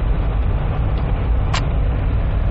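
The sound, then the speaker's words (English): Steady low road and engine rumble inside a Jeep being driven home. The noise stays constant and even throughout, with no talk. “I am. Man in his Jeep. Driving home.”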